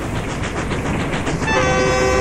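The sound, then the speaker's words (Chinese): A train travelling on rails toward a provincial city, with a constant dense rumble and rattle. Partway through, a sustained horn-like tone joins and holds to the end. “火车载着年儿仨向省城驶去”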